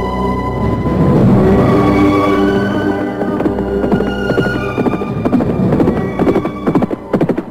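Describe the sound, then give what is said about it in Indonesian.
A band of riders on horseback comes along a road: a dense, rumbling clatter of many hooves that breaks into sharper, separate beats toward the end. “Apakah Kakang tidak mendengar serombongan berkuda menuju arah jalan ini? Dengarlah.”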